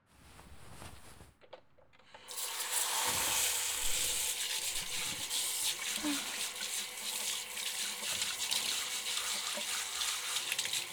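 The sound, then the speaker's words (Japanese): Hot water runs from a tap during a hair wash with carbonated shampoo. After a couple of quiet seconds with faint rustling, a steady, full rushing stream starts and continues evenly to the end. “とにかくお湯出します。”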